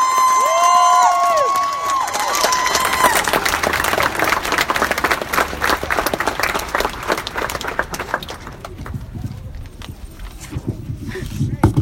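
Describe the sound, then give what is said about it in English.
An audience at a poetry reading breaks into applause: a dense, steady patter of many hands clapping, mixed with some cheering. It follows a brief voice at the start and stays loud throughout. “So y'all gotta clap a little louder than that.”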